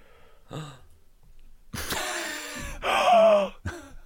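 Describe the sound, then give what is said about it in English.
A sharp, sudden intake of breath, a gasp heard as a few breathy bursts, the longest a loud rush of air followed by a voiced, sigh-like exhale, with no words spoken. “Was a sharp intake of breath necessary”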